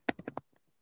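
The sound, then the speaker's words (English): Typing on a computer keyboard: four quick, crisp key taps in a short burst, then a couple of much fainter clicks trailing after. “I'll just type it here.”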